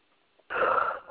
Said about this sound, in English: Stop yawning.